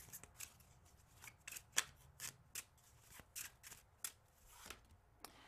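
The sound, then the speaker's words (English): Cards from an oracle deck being shuffled and handled to pull a reading: many crisp, papery snaps and flicks in an irregular rhythm, fairly faint, with no talking. “We're going to get the Literary Witches Oracle deck to pull some cards.”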